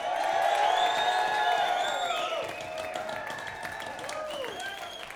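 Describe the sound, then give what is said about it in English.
Audience cheering and applauding for a band at a concert in Eugene, Oregon: dense, continuous clapping mixed with whoops and whistles, loudest at first and easing slightly after a couple of seconds. “I would like everybody to make as much noise as possible for my favorite band, the Quick and Easy Boys.”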